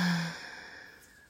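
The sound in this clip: A single audible exhale during a guided breathing meditation: a soft, airy breath that starts with a brief voiced edge and fades out steadily over about a second, with no talk.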